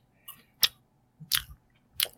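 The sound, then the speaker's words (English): Makgeolli rice wine is chugged in a few faint, wet gulps and swallowing clicks, spaced irregularly with quiet pauses between them. “I'm going to chug this makgeolli.”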